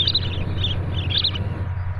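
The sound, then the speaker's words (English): Aleutian tern calls: three short clusters of high, thin chirping notes, fairly faint over a constant low background hum. “That was a brief recording of Aleutian tern”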